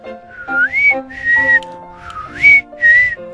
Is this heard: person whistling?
yes